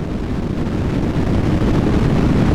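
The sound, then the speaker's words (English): Deep roar of a SpaceX rocket launch: a continuous, heavy rumble that stays loud and steady throughout, with no voices over it. “Did you just fart? No, it's a SpaceX rocket.”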